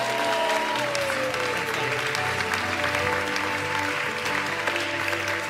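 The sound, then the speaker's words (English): A church audience at C3 Powerhouse on the Sunshine Coast applauding as they stand to welcome a guest speaker, a steady, sustained wash of clapping that holds throughout. “So I want us to stand up together right now, C3 Powerhouse, give a massive welcome to Derek Rebello.”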